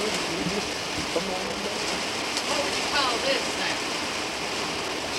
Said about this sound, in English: What would you call this now? Quick shower. Just a quick shower.